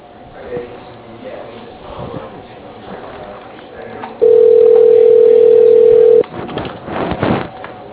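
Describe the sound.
A single steady telephone tone, loud and unbroken for about two seconds, sounds as a call is transferred to voicemail, set between stretches of faint line noise and rustling.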